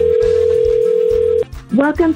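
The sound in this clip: Ringback tone of an outgoing telephone call to a listener: one long, steady, mid-pitched tone that holds for over a second and then cuts off abruptly before a voice begins speaking.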